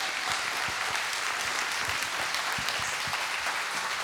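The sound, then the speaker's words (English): A church audience gives a standing ovation, with thick, sustained applause holding steady throughout and no pause. “Dude, they're standing for you.”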